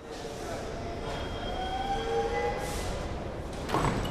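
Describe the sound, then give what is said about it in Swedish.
A train pulls into a station and stops, then its doors open: a moderate rumble with high whining brake tones, and a louder burst near the end. “The train pulls into the station and stops. The doors open.”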